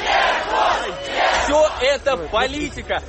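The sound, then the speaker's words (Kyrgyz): A crowd gathered outside a courthouse after a verdict shouts a convicted defendant's name in support. Loud unison chanting swells and drops in repeated bursts of many voices. “Шарттуу кесилген Жуков сот имаратынан чыкканда топтолгон адамдар бир кыйлага анын атын атап кыйкырып колдоп туруштум.”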